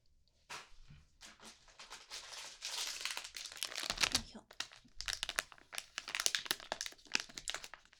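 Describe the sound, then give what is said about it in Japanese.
Crinkling and tearing of a wet hand towel packet being opened: many sharp plastic crackles and crunches in irregular bursts, with a longer rustling tear in the middle. “お手拭き。”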